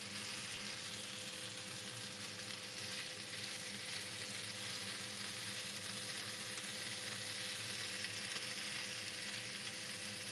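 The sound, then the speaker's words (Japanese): Meat sizzles in a frying pan, put in as a clump without being pulled apart by hand; a faint, steady, hissing crackle runs throughout with no talk. “肉をね、肉を手で引き剥がさないでそのままフライパンに入れるから、こうやって後悔することになるんです。”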